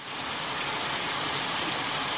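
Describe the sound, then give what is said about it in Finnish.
Heavy downpour during a cottage weekend in Kuusamo on a Saturday evening: a dense, unbroken hiss of rain that holds an even, fairly loud level from start to end, with no voices. “Joo, siinä on. Taas siis kaatosade.”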